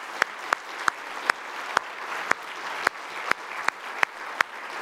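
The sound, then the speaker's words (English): Church audience applauds to congratulate a newly engaged couple. The steady, even wash of clapping has sharper individual claps standing out at regular intervals throughout. “So let's put our hands together and congratulate them.”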